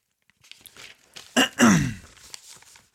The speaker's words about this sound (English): Sorry about all the cleared throats.